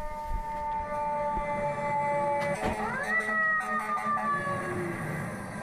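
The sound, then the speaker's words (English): A fire engine siren wails in New York City. The sustained, loud tone holds level, then climbs in pitch about midway and stays high to the end. “If you live in New York City, the sound of this is pretty common to you. New Yorkers know that's a fire engine.”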